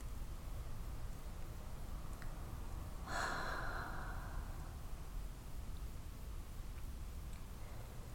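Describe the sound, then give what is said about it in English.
A single deep breath during a tantric breath guided meditation, one short airy exhale that rises out of a quiet, steady hiss and fades again, with no talk. “And I want for you to breathe. Breathe. Breathe.”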